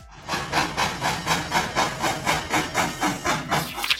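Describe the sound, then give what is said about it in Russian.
Steam locomotive under way, giving a steady, rapid rhythm of breathy chuffs, each puff a loud hissing burst of steam that repeats evenly throughout without a break. “Звуки транспорта. Паровоз едет. Чух-чух.”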